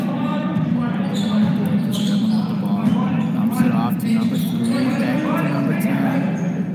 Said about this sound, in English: Lakers dribbling the ball around, trying to make something happen.